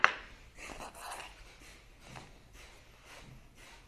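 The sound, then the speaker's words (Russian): Kapalabhati breathing in a kriya yoga session, rapid forceful exhalations through the nose heard as a string of many short, even puffs of breath in a quick, steady rhythm. “И капалабхати дышим минуту.”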